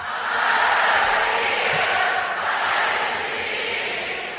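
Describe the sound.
A concert audience on tour sings along as one, a broad, blended roar of many voices that swells early and stays sustained before easing slightly toward the end.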